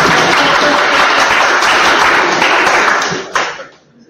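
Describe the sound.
An audience applauds with dense, steady clapping that stays loud for about three seconds, then thins out and fades to near silence.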